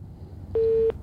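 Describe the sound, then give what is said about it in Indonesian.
A telephone busy tone after a call disconnects: a single short, steady, mid-pitched beep, loud and clean over faint background noise. “Oke, terputus ya untuk yang barusan nelpon.”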